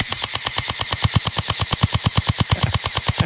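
A pellet gun fires in a house in rapid, evenly spaced bursts: many sharp, punchy pops in a steady mechanical rhythm, loud and continuous throughout.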